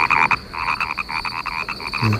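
Frogs croak in a rapid, loud chorus, with many quick pulses running steadily through the whole clip and no voices.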